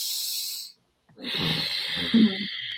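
Yoga throat breathing with the mouth shut, exhaled out through the nose: a soft, oceanic hiss, then a short pause and a second rushing breath with a slight rasp.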